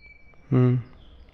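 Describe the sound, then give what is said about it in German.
A cockatoo gives a single short call, a brief tonal, voice-like squawk lasting about a third of a second, alone against a quiet background. “Was ist das für ein Vogel hier? Ein Kakadu tatsächlich.”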